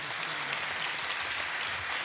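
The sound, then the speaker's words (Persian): Audience clapping at a Persian religious recitation, a dense, even wash of many hands striking together that stays steady and unbroken. “نه، یه کف خوشگل بزن.”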